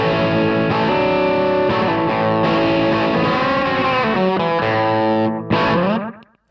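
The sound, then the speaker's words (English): Electric guitar through a Fulltone OCD overdrive pedal rings out in thick, distorted sustained notes and chords at steady loudness. A last struck chord ends in an abrupt cutoff near the close. “Then I have the full tone OCD just for basic overdrive.”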